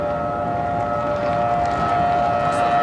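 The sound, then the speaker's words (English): Air raid sirens sound through shut-down, deserted streets: a loud, steady, sustained tone held over a broad rumbling wash, with no clear rise or fall in pitch. “the eerie sound of the air raid sirens”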